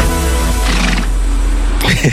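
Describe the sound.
A horse neighs in two shrill, quavering bursts over a constant low hum, with a voice also present.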